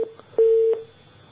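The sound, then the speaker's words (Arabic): A telephone line tone as a call drops and disconnects: a short beep, a faint blip, then a longer steady mid-pitched tone that stops abruptly and leaves quiet line hiss. “للاسف الاتصال انقطع”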